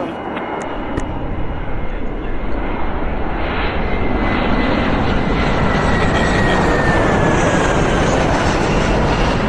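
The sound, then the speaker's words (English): Airplane engine roar swells up in the first second and then holds as a loud, dense, sustained rumble and hiss through to the end. “Sounds like a plane I flew in once.”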